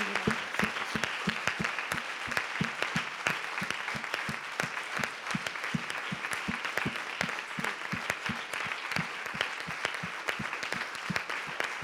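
Audience applause at a church prayer gathering: dense, continuous clapping from many hands, steady and fairly loud throughout without pause.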